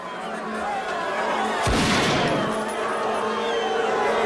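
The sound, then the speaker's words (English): A single sharp gunshot from a gun fired point-blank at a man's head: one abrupt, loud crack that breaks a steady low background, followed by a brief lingering tail. “He watches the other limousine speed off, then calmly points the gun at the decoy's head and shoots.”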